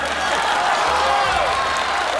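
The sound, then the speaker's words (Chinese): Steady applause rises from an audience at a comic auction-style wedding skit. The clapping is a dense, even wash that holds at a moderate level for about two seconds, with no pauses and no voices on top. “朋友们鼓鼓掌吧！”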